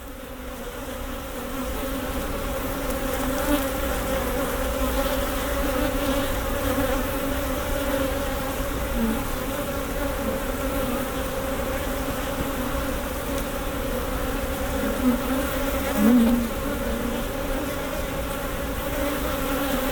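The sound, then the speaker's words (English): Bees swarm in and out of hives at an apiary on a meadow, making a continuous, fairly faint buzzing drone with a few louder buzzes passing close near the end. “There were millions of bees at the apiary, blanketing the entire meadow, their tiny bodies flitting in and out of the hives.”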